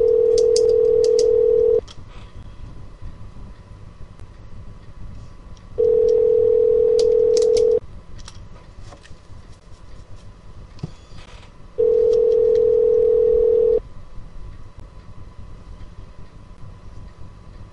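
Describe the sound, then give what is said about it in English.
A telephone rings on the line: three long, steady mid-pitched tones, each about two seconds, repeat at regular intervals over a noisy, rumbling background. “Hold on, phone's ringing. Phone's ringing.”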